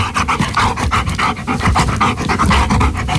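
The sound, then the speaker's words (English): A dog pants hard and fast, a long run of quick, breathy, rhythmic huffs that stays loud and even with no other sounds around it. “I think the answer is a dog panting”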